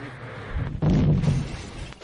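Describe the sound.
A briefcase bomb explodes in a cab with a sudden heavy boom that rumbles low and loud for about half a second before trailing off into a rough, noisy tail.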